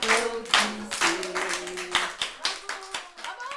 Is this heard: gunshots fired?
no